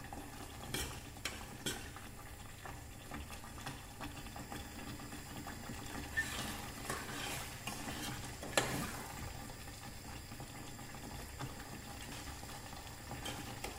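Spoon stirring a thickening mixture in a steel pot, scraping the corners so it won't stick and burn: a faint, steady bubbling and scraping texture with a few brief, louder scrapes, and no talking.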